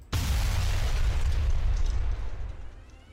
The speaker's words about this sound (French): une énorme explosion. Et là, vous voyez un trou se former dans le mur sud.